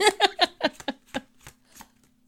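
Tarot cards being drawn from the deck, making a quick series of crisp papery flicks that grow softer and more spaced out as they go.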